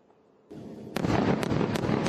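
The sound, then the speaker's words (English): Airstrikes hitting northern Gaza at night: a sudden deep rumbling roar swells up and stays loud, with a few sharp cracking blasts punching through it. No voices are heard. “I do want to show you what it was like last night as those airstrikes targeted the northern part of Gaza.”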